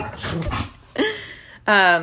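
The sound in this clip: Dogs barking and yelping excitedly in a couple of sharp, fairly loud bursts, each with a bright harmonic edge, after a rougher, noisier stretch at the start.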